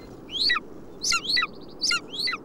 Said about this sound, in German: Man sieht dort auf dem Felshang eine Gruppe von kleinen Vögeln. Obwohl sie im Winter nicht viel singen, klingen doch einige Triller im Stillen dieser Gipfel.